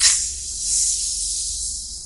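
A soft, airy hiss as doors slide open, steady and breathy for about two seconds, brightest at the very start and then holding level.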